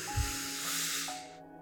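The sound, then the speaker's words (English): A person breathing in during a guided meditation: one slow inhale heard as a steady, breathy hiss of air lasting about a second and a half, alone and fairly soft. “Again, breathe in”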